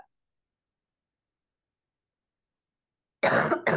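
A person coughing and clearing the throat: two short, rough bursts in quick succession at the very end, after a long stretch of silence.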